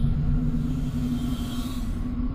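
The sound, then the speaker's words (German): Steady electronic drone of a computer activating in a science-fiction radio drama: a loud, unbroken low hum with a faint higher tone running through it, with no voices. “Der Computer aktiviert sich.”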